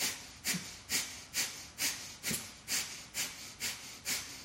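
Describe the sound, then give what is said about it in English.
Sharp, forceful nasal exhalations of yoga breath-of-fire breathing, the belly pulled hard toward the spine: a rapid, even run of about nine hissing puffs, roughly two per second, each snapping on loudly and fading quickly. “use the breath of fire, pulling the belly button strongly in towards the spine for a sharp exhalation”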